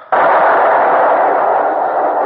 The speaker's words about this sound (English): Our pieces loaded, sir! Stand by! Stand by! Broadside! Fire! Fire!